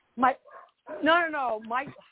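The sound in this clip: An excited dog yips and whines: a sharp short yip, then long, high-pitched, wavering whimpering cries that rise and fall in a few bursts.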